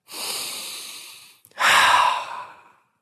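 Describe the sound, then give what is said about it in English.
A person inhaling steam from a humidifier: two long, breathy rushes of air with a brief pause between them, the second louder and harsher than the first. “That was me inhaling humidifier.”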